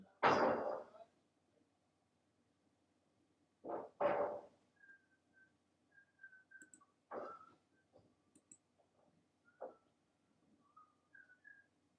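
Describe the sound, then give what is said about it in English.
Workers on scaffolding outside a closed window whistle short, scattered tunes between a few dull knocks and thumps, with sparse clicks in the gaps. “They're on the scaffolding, they're not far outside my window. You can hear them loud and clear. I mean, the window's not even open.”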